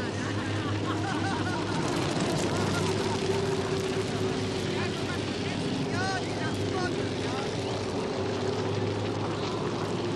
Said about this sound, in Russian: Площадь перед амбаром опустела. На нее выезжает мотоцикл.